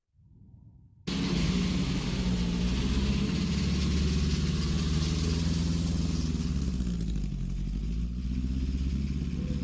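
A car engine runs on a practice drive around a course after the car was welded back together. The loud, steady drone starts abruptly after a brief quieter moment and then holds an even, unbroken roar.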